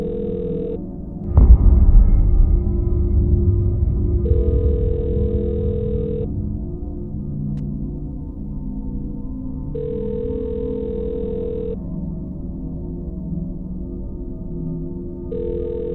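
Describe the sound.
An unanswered telephone call ringing out: long, steady ringback tones repeat at regular intervals of several seconds over a low background hum, with a single thud near the start.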